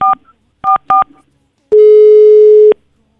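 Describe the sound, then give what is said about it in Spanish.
Telephone keypad tones as a number is dialed: three short, sharp beeps in quick succession, then a pause and a single steady lower tone lasting about a second before silence. “vamos a marcarle en estos momentos a la tía Margarita.”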